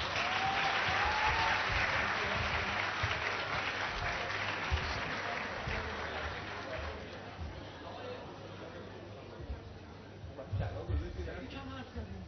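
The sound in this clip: Sustained applause from an audience at a graduation ceremony: dense, continuous clapping that holds steady, thins slightly toward the end, then swells briefly again, with voices mixed in underneath.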